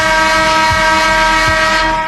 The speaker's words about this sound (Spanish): ¿Te puedo tocar la bocina? Venga.